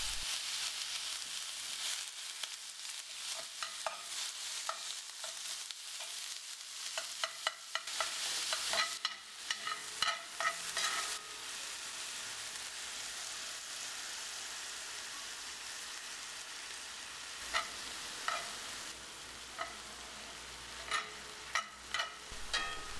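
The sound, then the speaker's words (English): Onion, garlic and meat fry in oil in a pan, giving a steady, soft sizzling hiss broken by many sharp clicks and scrapes of stirring, with no talking. “I just sauteed my onion and my garlic in oil for about 5 to 10 minutes until it's browned. Then I added the meat and I browned that for another 10 minutes until it's cooked through.”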